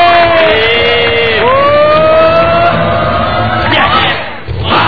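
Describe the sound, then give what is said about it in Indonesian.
A live seminar audience cheers and whoops, a loud, dense and continuous roar of many voices with wavering shouted tones rising above it. “kasih tepuk tangan, kasih suara”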